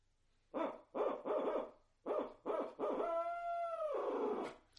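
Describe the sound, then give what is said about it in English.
A person imitates an owl at night through cupped hands to make turkeys gobble. Six muffled hoots come in a rhythmic series: five short ones, then a long, drawn-out final note that trails off. The calls are fairly quiet, with nothing else heard. “And if not, then I may give a few more hoots.”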